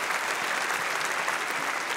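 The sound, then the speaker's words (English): Audience applause, a dense and steady wash of clapping that holds at an even level for the whole two seconds, with no voices over it. “Yes, I hope you're applauding for me because that labor process, man, that was tough for me.”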